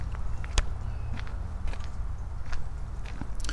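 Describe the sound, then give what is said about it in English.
Footsteps walk outdoors near a frozen bay. A few faint, crisp steps and crunches sit over a steady low rumble, with no talk. “Walking through Heron Haven,”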